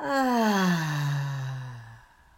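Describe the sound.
A slow, deep breath during a guided breathing exercise, heard as a long, voiced, sigh-like exhale whose pitch gradually falls and fades out after about two seconds.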